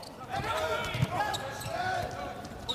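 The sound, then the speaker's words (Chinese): A volleyball serve by the German team's outside hitter, number 66: a single dull thump of the ball stands out amid continuous crowd noise and people talking. “66号德国队的主攻手勒尔斯率先来发球。”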